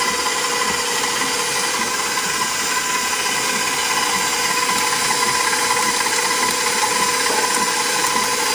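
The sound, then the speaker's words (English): An electric mixer beating cake batter gives a steady, loud mechanical whirring drone with a gritty rattling texture, unchanging from start to end with no voices. “I'm going to stop my mixer because I want to mix everything together. So I'm going to stop my mixer.”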